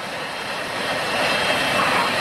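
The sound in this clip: Roaring whine of a parked airplane with its engines running, a steady broad rushing noise that swells slightly louder over about two seconds, with no talking.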